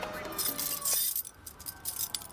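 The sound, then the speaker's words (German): A gang leader's bunch of keys jangles and clinks as he unlocks a rusty iron gate in a back-courtyard wall, in a radio drama: a bright metallic rattle followed by lighter, scattered clinks. “In der Mauer des Hinterhofs war ein rostiges Eisentor. Marsch! Der Anführer der Gang schloss es mit einem Schlüssel auf, den er an einem Bund bei sich trug.”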